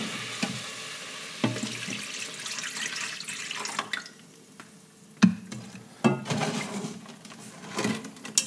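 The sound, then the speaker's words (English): A pan of dissolving sugar is stirred while cooking an Omani dish, giving soft sloshing and scraping with a sizzling hiss underneath, broken by a few sharper knocks of the utensil against the pan. “Keep stirring.”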